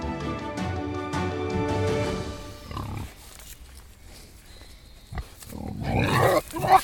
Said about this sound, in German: Das, was ihr gerade hier im Hintergrund hört, sind zwei Wildschweine, die hier in insgesamt, glaube ich, 3 oder 4 Rotten in dem Wildpark in Gehegen verteilt leben.